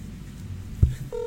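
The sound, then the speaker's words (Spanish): A telephone keypad dialing tone sounds as a call is placed: one low thump, then a steady dual-pitched beep near the end over a faint background hum. “Me estoy tomando el atrevimiento de llamarle.”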